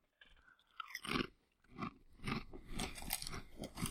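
Crunching and chewing of Ruffles potato chips during a taste test: a few crisp bites followed by steady, dense crunching toward the end, with no talking.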